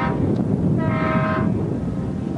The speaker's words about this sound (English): That's a tugboat whistle